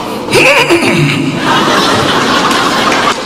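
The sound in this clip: A man's voice imitates a stallion's neigh with a loud, wavering cry that falls in pitch, followed by continuing crowd noise.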